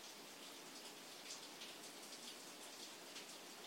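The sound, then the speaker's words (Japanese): Morning rain falls in Kyoto as a soft, even hiss of countless drops, faint and continuous with no other sounds standing out. “今京都の朝は雨が降っていて、雨の音が聞こえる。”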